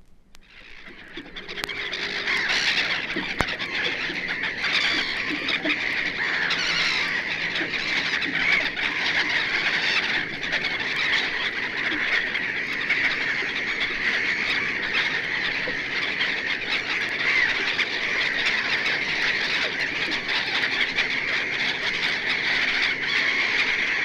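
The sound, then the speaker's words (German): Black-headed gulls call over a breeding colony of about 2000 birds, their deeper, harsh cries forming a dense, continuous chorus that builds up within the first two seconds and then holds steady. “Lachmöwen hingegen rufen tiefer und rauer. Hören wir ihre Stimmen über einer 2000-köpfigen Brutkolonie.”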